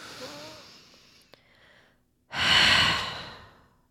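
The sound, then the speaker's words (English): A slow deep breath taken during a guided relaxation exercise: a soft, drawn-out inhale, a brief pause, then a louder, airy exhale that fades gradually. “Again, take a deep breath in and fall out. One more time, deep breath in.”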